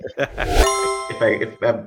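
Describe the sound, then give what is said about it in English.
A single bright ding sound effect rings between bursts of talk, a clear bell-like tone with steady overtones that holds for about half a second before it fades. “I'm gonna put my ding.”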